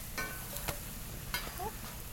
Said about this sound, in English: and frying it in a little coconut oil. We'll just let it get nice and crispy on the outsides, and then it's going to be nice and sort of like almost like a poi on the inside.